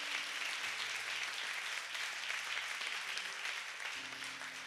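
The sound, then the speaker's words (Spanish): A church audience applauding the Lord in dense, steady clapping that holds at an even level throughout, with a faint low hum underneath. “Denle un aplauso al Señor, ¿verdad?”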